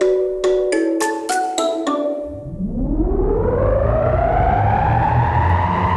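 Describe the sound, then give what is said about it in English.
Sound effect for spinning a world globe: a quick run of bright, chime-like plucked notes, then a loud whooshing sweep that rises in pitch and holds steady. “Spin the globe. Each day, we give the world globe a spin and find a news story from wherever it stops.”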